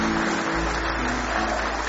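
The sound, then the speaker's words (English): A church audience clapping their hands in praise during a morning service. The claps blend into a dense, steady wash of loud, even noise with no single claps standing out, over a low hum. “Give Him one more hand clap of praise this morning.”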